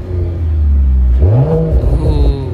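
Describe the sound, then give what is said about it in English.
A Mercedes AMG CLE 53 Cabriolet, a fast convertible, idles with a deep low rumble, then its engine revs, the tone climbing sharply in pitch before settling into a higher, rougher hum. “it's a Mercedes AMG CLE 53 Cabriolet.”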